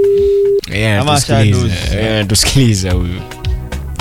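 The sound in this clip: A telephone call rings out unanswered, opening with one short, steady, mid-pitched ring tone. Loud voices then take over.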